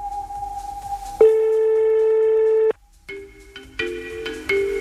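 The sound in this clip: Telephone tones on an outgoing live call: a steady tone, then a louder sustained tone lasting about a second and a half, a brief silence, and a few shifting tones.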